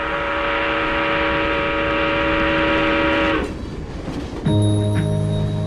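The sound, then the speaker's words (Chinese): Train horn sound effect: sustained, loud harmonic horn tones, then a short stretch of rumbling noise, then a second horn chord sounding to the end. “上车的旅客请注意，前方到站忠孝东路。”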